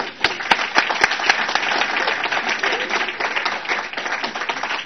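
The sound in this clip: An audience applauds to welcome a speaker: sustained clapping from a crowd with several sharp, prominent individual claps early on, holding a fairly even level to the end.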